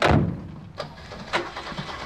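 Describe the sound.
Engines of three vehicles, one a three-ton truck, being started at night: a loud rumbling burst at the start that fades, then a few short, fainter engine bursts, with no talking.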